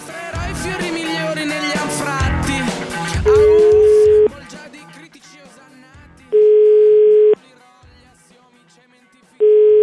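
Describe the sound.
Telephone ringback tone while placing a call: steady, mid-pitched beeps, each about a second long and spaced a few seconds apart, following a stretch of busy talk and sound at the start.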